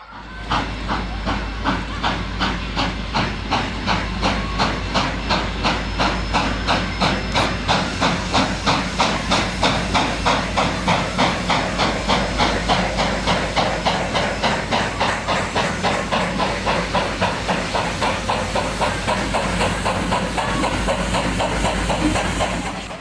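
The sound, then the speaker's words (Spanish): A steam train hissing as passengers board, with a loud continuous hiss broken into many fast, even pulses that keep a steady rhythm throughout. “Se invita a los viajeros a subir al tren y ubicarse en los asientos.”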